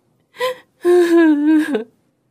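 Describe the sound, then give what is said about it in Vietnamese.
A woman suddenly bursts into tears during a marital argument: a short gasping sob, then a longer, steady, loud wailing cry that dips in pitch at its end, with no other voices. “Cô đột nhiên òa khóc miệng mếu máo.”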